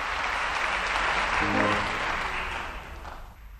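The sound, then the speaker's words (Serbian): Sustained applause from a concert audience as a pianist in a tuxedo bows, a dense, even wash of clapping that holds steady and then thins and fades toward the end. “Pijanista u smokingu. Klanja se. Aplauz. Cveće i još jedan bis.”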